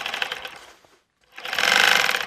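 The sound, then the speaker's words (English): A sewing machine in a living room stitching sealskin mittens trimmed with sea otter fur: a steady mechanical whirring run fades out, then after a short silence a louder, sustained run of rapid stitching. “He's hunched over a sewing machine in his living room.”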